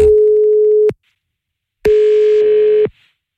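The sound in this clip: Telephone line tones while calling a number: two loud, steady single-pitch tones, each about a second long, separated by a silent gap. The second tone carries a brighter, buzzier edge.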